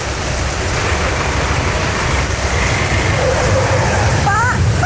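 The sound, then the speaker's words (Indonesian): Rushing floodwater current roars in a dense, steady wash of noise as the water rises quickly. A voice calls out over it near the end. “Air yang semula tenang perlahan berubah menjadi arus yang tak ramah.”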